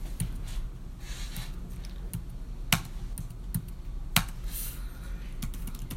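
Typing on a computer keyboard to enter a short word, a run of quick, irregular keystroke clicks with a couple of louder taps standing out over a constant background hiss, no talk.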